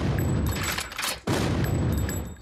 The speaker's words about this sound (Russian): Огонь! Витязь за Витязем улетает на ядре.